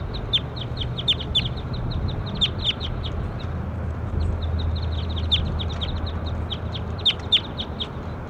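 Numbered birds call outdoors during a morning recording session, giving many short, high chirps at an irregular pace over a steady hiss and low rumble of background noise.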